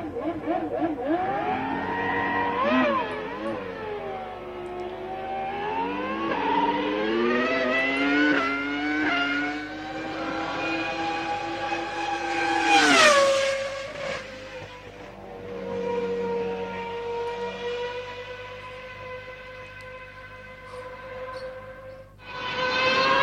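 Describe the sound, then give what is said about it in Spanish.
Racing car engines roar at the Jarama circuit during the Espíritu del Jarama speed festival, with loud sustained engine tones whose pitch rises and falls repeatedly as the cars rev and shift. “Bueno, qué rugir de motores y qué recuerdos nos trae del Jarama.”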